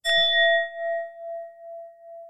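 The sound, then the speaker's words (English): A singing bowl is struck once and gives a clear, bright ring. The sustained tone wavers in slow pulses as it gradually fades, heard alone with no talk. “I'm going to grab my singing bowl”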